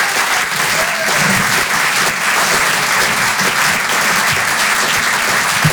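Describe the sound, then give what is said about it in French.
A theatre audience at a stand-up comedy show in Paris applauds loudly, with dense, steady clapping that fills the whole clip without letting up. “Faites du bruit s'il vous plaît pour David Azencot.”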